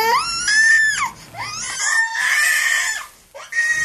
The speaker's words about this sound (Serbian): pokazalo je da je najviše iritira plač deteta uzrasta između 2,5 i 4 godine. Još malo da ga čuje. Ili još plače? Plače još.